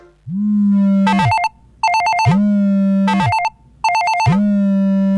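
A telephone rings loudly with an electronic ringtone, a low steady hum alternating with a bright warbling trill, repeating in three even cycles with no talk.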